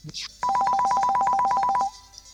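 Electronic telephone ringtone: one loud burst of rapid, evenly spaced warbling beeps that lasts about a second and a half, then stops.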